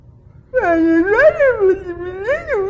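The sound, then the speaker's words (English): A voice imitates a whining cry. It is a drawn-out, wavering moan with a sing-song lilt that rises and falls in pitch, and it sounds loud and alone. “Cry. Some of you never outgrow that. You spend the rest of your life doing it. About something. We modify it and we put a little song to it and we call it whining.”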